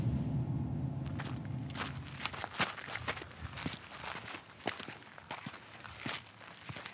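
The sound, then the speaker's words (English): Footsteps walk away from the parking lot at the Windows section of Arches National Park. Many soft, irregular steps crunch quietly after a low engine-like hum fades in the first two seconds. “Pulling into the parking lot to the window section, and we're going to pop out and go take a walk.”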